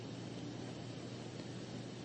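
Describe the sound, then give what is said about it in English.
Flowers showering down from gods and demigods in a devotional story, rendered as a quiet, even hiss of noise that holds unchanged throughout. “seeing all this, the Gandharvas and demigods showered flowers. That's the showering of flowers in the background.”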